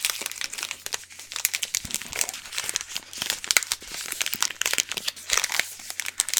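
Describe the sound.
Plastic wrappers of two Hanuta wafer bars crinkle and crackle in a gas-station shop roleplay. Dense, continuous rustling with many sharp snaps runs throughout at a soft, close level, with no voices.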